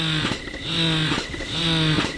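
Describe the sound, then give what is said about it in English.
An electric breast pump starts up and runs with a rhythmic motorized hum that cycles through repeating suction pulses at a steady pace. It is fairly loud and no one speaks. “While I met with her, she assembled one of her pumps and started it up.”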